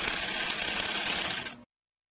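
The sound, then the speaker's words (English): A 30-year-old sewing machine stitches wool blankets with a steady, fast buzzing rattle at moderate loudness, running for about a second and a half before stopping abruptly. “using a 30-year-old sewing machine to stitch blankets out of what's left of the company's wool inventory.”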